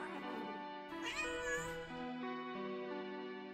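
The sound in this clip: A white cat meowing in a few long, loud, drawn-out calls with rich harmonics and a wavering pitch, heard alone.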